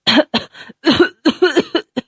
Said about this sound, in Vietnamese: Người kia mềm oặt ngã xuống đất, ho sù sụ không ngớt.